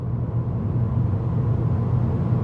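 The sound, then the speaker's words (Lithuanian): A 20-year-old washing machine runs with a steady, loud low rumble, constant and unbroken from start to finish. “Tai 20 metų senumo skalbyklės garsas.”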